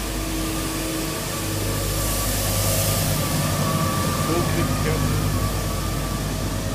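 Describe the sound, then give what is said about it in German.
A Swingo 200 street sweeper drives along a street in Stuttgart with a steady engine drone and a broad brushing hiss. The sound swells slightly in the middle of the pass and holds to the end. “Fährt übrigens eine Kehrmaschine lang. Ja, muss vielleicht vorbei sein. Jetzt hört ihr mal eine Kehrmaschine in Stuttgart.”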